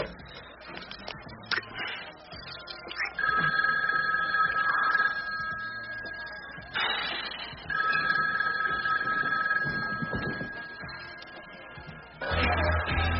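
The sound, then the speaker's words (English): A telephone rings in two separate bursts, each a steady bright electronic trill lasting a couple of seconds, fairly faint against low background rumble and clatter. “get the phone.”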